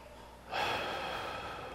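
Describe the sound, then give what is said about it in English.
A single deep breath drawn in after a short quiet pause, an airy rush that starts abruptly, holds steady, and slowly tapers off. “In fact, just for one second, let's just be mindful of this. Let's just take in a breath.”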